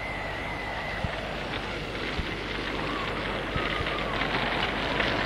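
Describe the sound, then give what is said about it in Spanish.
A fire burns in a fireplace, fed by a big pile of firewood with a strong chimney draw. A faint, steady rushing hiss is broken by a few sharp crackles and pops. “En el rincón brillaba un intenso fuego. Han apiñado un buen montón de leña. El tiro de la chimenea hace que las llamas parezcan bailar una alocada danza.”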